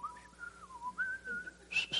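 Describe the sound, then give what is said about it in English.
A person whistles softly, a thin, wavering tune whose sustained notes dip and then rise in pitch before a brighter, higher note near the end. “I can't whistle very loud, you know.”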